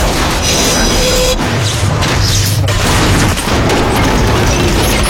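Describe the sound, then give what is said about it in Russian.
Subway train cars crashing against tunnel walls: a loud, continuous grinding roar of metal, broken by a few heavy thuds and bangs throughout. “Вагоны бьются о стенки тоннеля. Сыпятся искры.”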